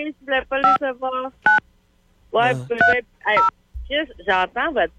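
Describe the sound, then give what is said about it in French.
Telephone keypad dialing tones, several short steady beeps pressed one at a time at a slow, uneven pace, with people talking between and around the presses. “J'entends votre pitonnage dans mes oreilles. Là. Oui, c'est normal, t'as peur. Ouais, je tape pas très vite.”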